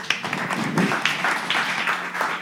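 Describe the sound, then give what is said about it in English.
Applause from a church audience: a dense, steady patter of many hands clapping that holds at an even level throughout. “Can everyone give them a round of applause?”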